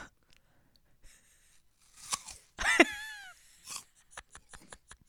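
Person chewing crunchy food, giving faint, irregular crisp crunches and bites with a quick run of sharp crunching clicks near the end.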